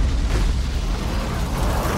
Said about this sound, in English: you mentioned the grenade hop. This is part of that.